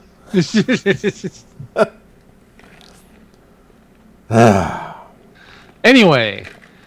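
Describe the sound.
A person takes deep breaths: a quick run of short voiced gasps, then two long, loud, breathy exhales with a wavering tone, separated by quiet pauses.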